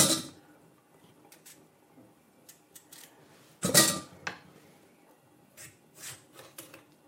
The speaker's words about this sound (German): In der Zwischenzeit schneide ich jetzt die Kartoffeln in hübsche Spalten.